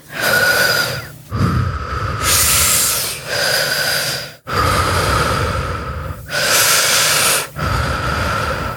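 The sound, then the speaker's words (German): Heavy, loud breathing from someone who could not get air and is calming down while sitting upright, trapped in a confined place. Long, slow inhales and exhales alternate in a steady rhythm across several deep breaths, with no talk. “Setz dich mal aufrecht hin. Atme mal mit mir mit.”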